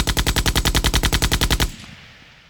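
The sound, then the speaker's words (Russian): Automatic rifle fire rings out in one loud, rapid burst of many evenly spaced shots that stops abruptly, leaving a short fading echo. “а следом товарищ выпустил целую очередь из автомата”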